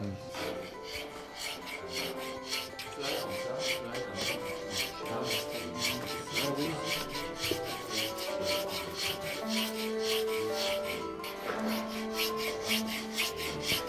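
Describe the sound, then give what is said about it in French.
Hand filing of a small wooden instrument peg, heard as many steady, rhythmic rasping strokes of a file on wood, moderately loud and continuous without talk. “Et là aussi, encore un travail de précision sur une toute petite pièce avec une lime. Ça va être, j'imagine, une des chevilles dans des instruments.”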